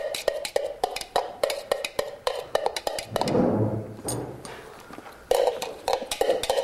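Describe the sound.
A spoon stirs a pot of soup made with potato, onion and broccoli, giving many quick clinks and scrapes against the pot. A smoother swishing stretch comes midway, then brisk clinking resumes. No one talks.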